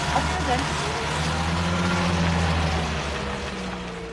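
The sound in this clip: A jeep's engine rumbles in a low, steady drone as it drives, with people talking over it throughout.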